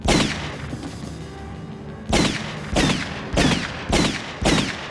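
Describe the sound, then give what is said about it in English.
Gunshots from the Terminator film scene where the Terminator shoots Sarah Connor. An opening blast rings out, then after a pause five more booming shots follow at short, fairly regular intervals, each with a reverberant tail. “She says yes, and he goes in, and we have our first murder where he just straight up shoots her a bunch of times.”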